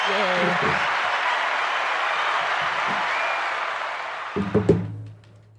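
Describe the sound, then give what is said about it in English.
A crowd-applause sound effect plays as a steady wash of clapping for several seconds, then cuts off abruptly near the end. Brief talk is heard at the start and again as the clapping ends. “I gave you a crowd clap.”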